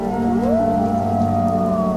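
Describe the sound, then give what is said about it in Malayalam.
A jackal howls from a hillside at night, a long tonal cry that glides upward and then holds steady, over a low continuous drone. “കുന്നിൻ ചെരുവകളിൽ നിന്ന് രാത്രിയെ സ്വാഗതം ചെയ്യുന്ന കുറുക്കൻ്റെ ഓരികൾ”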